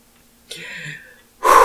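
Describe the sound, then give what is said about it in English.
A deep breath is drawn in as a sharp, wheezy gasp with a slightly whistling edge. It fades out, and after a short pause a voice begins loudly. “Deep breath.”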